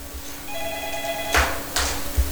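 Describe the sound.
A telephone rings with an incoming call-in: a single electronic ring of steady high tones, followed by a couple of brief noisy bursts.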